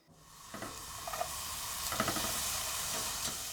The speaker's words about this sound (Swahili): Weka siagi kwenye sufuria na ukaange kitunguu kwa kutumia moto wa chini.